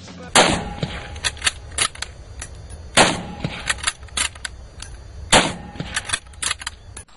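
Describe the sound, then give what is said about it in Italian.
Three rifle shots from a Mannlicher-Carcano, fired in Dealey Plaza, Dallas, in 1963 from the Texas School Book Depository. Each shot is a loud, sharp crack, spaced a few seconds apart, with fainter clicks and rattles between them. “Un fucile Mallinckrodt Carcano esplode 3 colpi in soli 7 secondi da un edificio in Dealey Plaza, il Texas School Book.”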